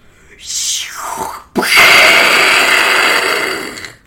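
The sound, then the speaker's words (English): A human voice imitates a missile. A high whistle slides steeply downward in pitch, then after a short gap a loud, noisy blast bursts out and holds for a couple of seconds before fading. “Let me hear the missile.”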